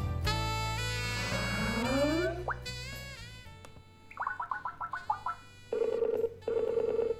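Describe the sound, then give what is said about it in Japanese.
A Skype video call connects and rings, with bright electronic tones: a melodic jingle with a gliding rise, a quick run of short chirping pulses, then warbling ring bursts, all without talk. “長崎県は諫早の方とスカイプでつないでいこうと思います。”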